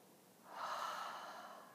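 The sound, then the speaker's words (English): A single deep breath taken during a guided breathing exercise, a soft airy rush that swells after about half a second and slowly tapers off, quiet and alone. “Again, bigger breath in. Inhale and exhale.”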